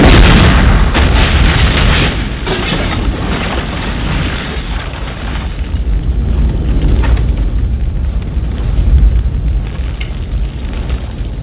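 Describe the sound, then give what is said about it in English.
A bomb-drop sound effect dropped into a DJ mix: a loud, sustained roaring blast of dense noise with a deep rumble that fills the whole stretch without break. “He's going to drop the bomb sound. So whenever you hear this sound right here, you got my bombs for me? Drop my bomb. Drop me a bomb.”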